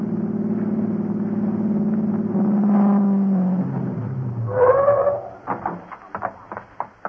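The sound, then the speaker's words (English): A car engine being driven fast in a race holds a steady low drone, then rises and revs in several short surges toward the end. “get Larry's car started. Then you use every shortcut you know to Fran's house.”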